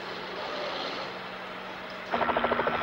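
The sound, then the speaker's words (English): A helicopter swoops down low toward a van: a steady, broad whooshing roar that, near the end, turns louder with rapid, rhythmic chopping pulses. “spies the van from his helicopter and they swoop down low towards it.”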